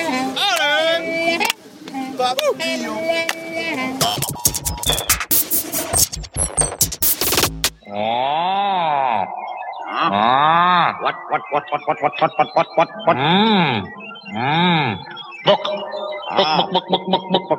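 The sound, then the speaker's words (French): Buzzing, trumpet-like blasts from a boy blowing into a garden hose that ends in a funnel: a long run of short, wavering, moo-like honks with swooping pitch, loud and rich in overtones. “c'est un bout de tuyau d'arrosage terminé par un entonnoir, et le petit gars, il souffle dedans, comme dans une trompette.”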